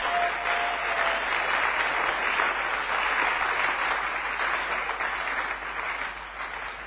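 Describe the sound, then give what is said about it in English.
Congregation clapping hands for the Lord during a sermon, a dense, steady wash of applause that continues without break and tapers slightly near the end. “Why don't you clap your hands for the Lord?”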